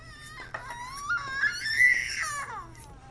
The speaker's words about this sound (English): An ear-piercing sob breaks the silence of the dark night.